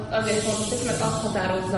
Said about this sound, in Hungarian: Közben kaptunk egy üveget, amiben sziszeg egy másoderjesztés.